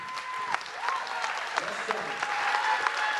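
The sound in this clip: An audience at a church service applauds a preacher coming on stage. Steady, loud clapping with a few sharper individual claps fills the whole stretch.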